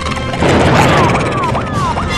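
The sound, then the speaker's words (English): Energy weapon blasts hitting during a sci-fi attack: a dense, crashing rumble with several short swooping tones layered over it. “What is happening? That felt like an energy weapon. We're under attack.”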